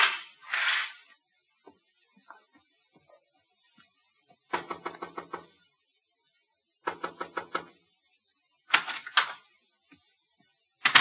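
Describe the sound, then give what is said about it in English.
An elevator arriving, heard as three clattering bursts of rapid metallic clicks and knocks, each lasting about a second, separated by near silence with a few faint ticks, and a last burst starting at the very end. “Shh, shh, quiet, elevator.”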